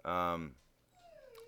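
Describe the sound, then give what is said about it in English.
A dog whines to be let outside, a faint, thin, high-pitched whine that slides slightly downward near the end. “If you hear a whining there, I apologize. That's my dog saying she wants to go outside.”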